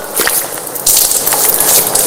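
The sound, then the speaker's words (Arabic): Water splashes steadily as hands scoop water from a lightly running tap and wash the face. The wet splashing grows louder partway through and continues without a break. “هكذا غسل الوجه. هكذا أخذت الماء بيدي ثم غسلت وجهي”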